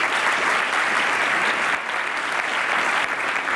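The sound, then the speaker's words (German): Studio audience applauding at an evening talk show, a steady, even wash of many hands clapping that runs unbroken and fairly loud for the whole stretch, with no talk over it. “Sie dürfen zwischendurch auch gerne applaudieren.”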